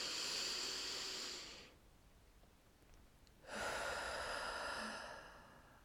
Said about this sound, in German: Atme dreimal tief ein und aus richtig in deinen Bauch hinein.